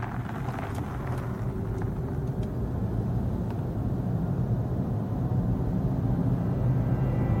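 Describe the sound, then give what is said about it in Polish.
An electric, zero-emission BMW i3 car drives with a steady, low rumble of road and wind noise that stays even and moderately loud throughout, with no voices. “Tak brzmi elektryczne, zeroemisyjne BMW i3.”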